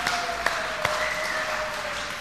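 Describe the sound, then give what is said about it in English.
Audience applause at a church youth service: a short burst of steady clapping with a few sharper claps standing out. “Hopefully you brought, amen, let's clap.”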